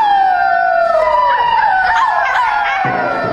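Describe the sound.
Wolves howl in several overlapping voices, long sustained cries that slowly fall in pitch, loud and continuous throughout.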